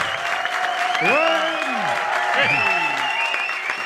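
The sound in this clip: A studio audience cheers and applauds at the start of a live radio programme, with steady, loud applause and shouting voices rising and falling above it throughout.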